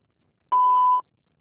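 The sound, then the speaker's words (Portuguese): A voicemail beep sounds before a message is recorded: a single steady, mid-high electronic tone lasting about half a second, alone in silence. “Por favor, deixe sua mensagem após o sinal.”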